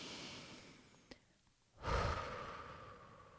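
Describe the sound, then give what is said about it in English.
A deep breath drawn in quietly through the nose, then a louder, airy exhale pushed out through the mouth that starts abruptly and slowly fades away. “let's just take a deep breath, shall we? In through the nose, out through the mouth.”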